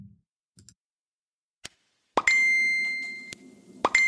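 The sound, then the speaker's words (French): A bright chime rings out to draw attention: two struck tones, the first ringing on with a clear high sustain that slowly fades, the second cut off at the end, preceded by a few faint soft clicks. “Non, ne t'inquiète pas, c'est pas chez toi que ça sonne, c'est ici. En fait, c'est juste pour attirer un petit peu ton attention”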